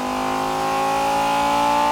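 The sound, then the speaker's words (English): A car engine runs in gear during a recording session, giving a loud, steady droning hum with strong tonal overtones and no pauses throughout. “What they call a ramp, put the car in gear, and drive it smoothly up to the red line,”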